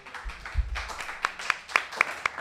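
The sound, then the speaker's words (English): Scattered hand claps, five sharp claps in a loose, even rhythm, with a faint low thump just before them. “A round of applause.”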